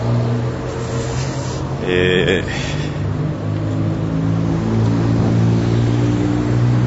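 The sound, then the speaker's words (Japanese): A car engine rumbles steadily as a vehicle drives out of a club entrance onto a city street. A brief louder burst comes early, over constant traffic noise. “ブリティッシュクラブから車が出てきました。”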